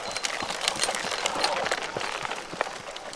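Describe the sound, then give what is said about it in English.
Hooves of a harnessed workhorse clip-clop as it trots in a tight circle, powering a sorghum cane mill that squeezes juice from the cane, giving many steady, fairly soft hoof beats against a constant background. “He trots in a tight circle to power the mill that squeezes the juice from the cane.”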